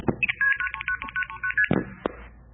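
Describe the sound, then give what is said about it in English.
Multi-frequency signalling tones of the old telephone system, used internally by the network rather than touch-tone dialing, sound as many brief electronic beeps in rapid succession, fairly loud and alone. “And multi-frequency, some of you might have heard this when you were dialing, sounds like this.”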